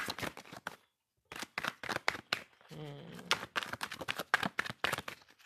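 Tarot cards are shuffled by hand, with many crisp rapid flicks and slaps, a short pause, then a buzzing riffle followed by more quick flicks.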